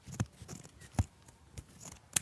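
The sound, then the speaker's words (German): Scissors cut a rounded neckline, a few crisp, sharp snips spaced irregularly apart, with quieter rustling between the cuts. “Und jetzt noch den Ausschnitt schön rund ausschneiden. Das geht dann schön schwer.”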